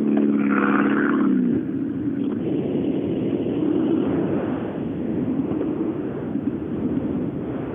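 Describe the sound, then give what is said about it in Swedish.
Escort cars driving past with a loud engine roar, a higher revving tone over the first second and a half, then a broad, steady rumbling drone. “de här heter ju inget annat än Mats Jonsson-eskorter, de här bilarna”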